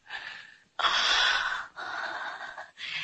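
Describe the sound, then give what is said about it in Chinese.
Deep breaths taken by a patient, a monarch, while a court physician listens: a few loud, airy, rushing breaths in succession, each lasting about a second, with short gaps between them and no talk. “请你再听一遍，我再做一次深呼吸。”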